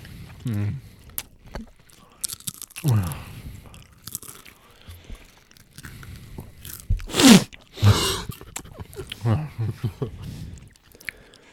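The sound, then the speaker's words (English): Crisp crunching of restaurant-style tortilla chips from an Aldi bag, with irregular bites and chewing and a few louder crackling bursts in the middle, alongside intermittent quiet talk. “of a dollar bag of chips from Aldi, restaurant style. It tastes even better with all these sounds.”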